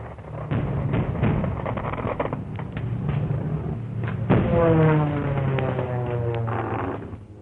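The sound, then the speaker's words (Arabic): An air raid sound effect in a radio drama: a sustained rumbling barrage of thuds and bursts, loud and continuous, with sharper blasts standing out midway. “يا نصيبتي غارة.”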